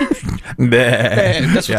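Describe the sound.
A person imitates a sheep's bleat with a drawn-out, wavering, nasal voice. A brief bit of speech comes first, then the single quavering bleat carries on to the end.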